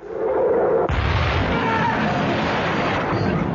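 Cannon fire from a fort pounding a grounded ship: a heavy boom bursts in after about a second and swells into a dense, rumbling roar that carries on loudly to the end.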